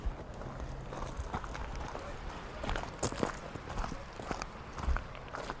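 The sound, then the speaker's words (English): Footsteps of people walking up to a small cove with sharp rocks, heard as irregular crunching steps over a steady background hiss, with a few louder scuffs along the way. “Right, we're just walking up to this little cove with sharp rocks”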